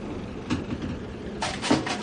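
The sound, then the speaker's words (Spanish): Kitchen cabinet doors are pushed shut in a messy kitchen. There is one soft thud early on, then a few quick knocks of wooden doors closing in close succession, over a low background hum. “Billy observa el desordenado lugar y cierra un par de puertas de los muebles de cocina.”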